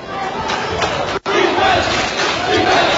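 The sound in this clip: The Norwell student section at a high school basketball game chants for defense, a loud, steady mass of massed voices with rhythmic swells and one brief dropout.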